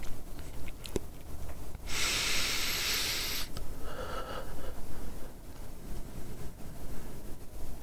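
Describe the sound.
A deep breath taken as part of a breathing exercise: a long, loud, airy inhale, then a softer and shorter exhale, with quiet breathing noise afterward.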